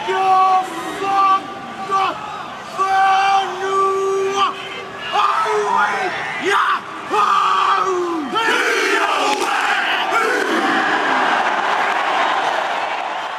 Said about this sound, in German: Was du hier hörst, ist der Haka, der maorische Kriegstanz.